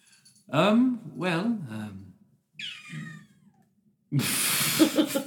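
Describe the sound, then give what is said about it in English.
A kitten meows a few times, high, thin and wavering in pitch, with short pauses between calls, before a loud burst of broad noisy sound. “Tonight, the role of Tobias will be played by June the kitten.”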